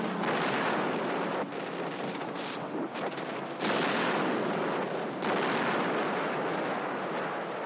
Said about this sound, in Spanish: Kelly corre al vehículo y abandonan el lugar sorteando las bombas que caen próximas a ellos.